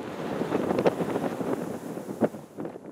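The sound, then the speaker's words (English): Wind blows through native grasses in Nebraska's Niobrara Valley: a steady, breathy rush with soft rustling and a few stronger gusts swelling briefly over the constant hiss. “That is the sound of the wind blowing native grasses in Niobrara Valley of Nebraska.”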